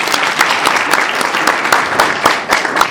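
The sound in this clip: Audience applause at a Bolivian forum on human rights and community radio. Dense, overlapping clapping holds at a steady, fairly loud level for the full three seconds, with no voices over it.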